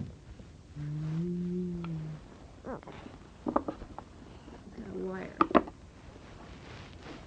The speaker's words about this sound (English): A cow. The cow says,